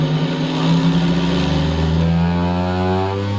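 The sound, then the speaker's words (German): A motorised vibrating seat machine drones after being switched on: a low, steady humming motor tone whose pitch creeps slightly higher in the last second or so as the vibration is turned up. “So, also die Frau setzt sich da drauf, dann schaltest du es ein und dann kannst du hier drehen zwischen der Vibration. Dann kannst du da richtig Gas geben.”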